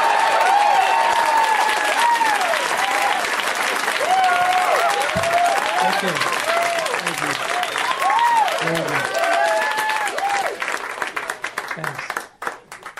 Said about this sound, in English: please put your hands together for Bob Odenkirk